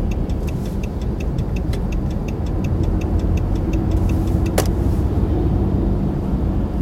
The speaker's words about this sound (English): It's like right now, I'm driving.